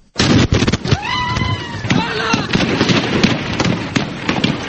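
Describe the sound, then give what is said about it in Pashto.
Gunfire from a deadly 2010 attack in Khyber Pakhtunkhwa: many sharp, cracking shots in dense, rapid bursts, with brief shouting voices rising over the din. “دا د 2010 میلادي کال د یوې خونړۍ پیښې ډزې دي چې په خیبر پښتونخوا کې په لسګونو تنو ته مرګ ژوبله واړوله.”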